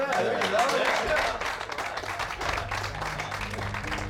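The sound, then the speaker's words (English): Group clapping at a support session for inmates, a burst of hand claps that rises at the start and then thins to scattered claps, with a voice briefly heard over the opening. “All right. That's a clap.”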